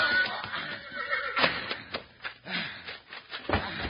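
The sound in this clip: A horse named Blaster, a cayuse, whinnies in a western scene, a fairly faint, shaky neigh broken by several sharp bursts.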